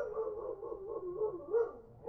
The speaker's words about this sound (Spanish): Esto es el perro de mi vecino.